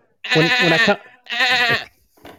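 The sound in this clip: A person imitates a goat's bleat with their mouth: two long, loud, wavering nasal bleats separated by a short pause, then a brief, much fainter third bleat.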